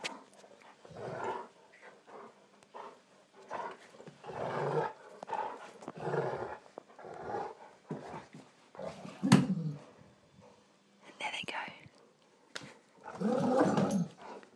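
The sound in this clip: Two dogs growl while they play tug-of-war with a rope, a continuous stream of rough, rumbling growls and snarls that swell and ease in bursts throughout.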